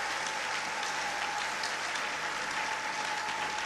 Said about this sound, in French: Est-ce qu'on peut acclamer le Seigneur? Tunaweza shangilia Bwana.